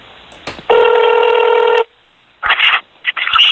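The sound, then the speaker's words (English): Ringback tone of an outgoing phone call over a narrow telephone line: a click, then one loud, steady buzzing ring lasting about a second, a pause of silence, and a few short bursts of sound afterward. “He never answers his goddamn phone.”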